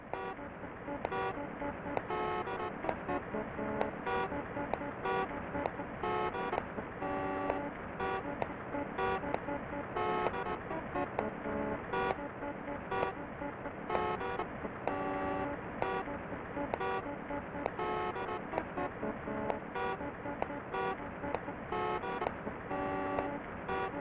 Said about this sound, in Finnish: hyytävää musiikkia Clock Towerista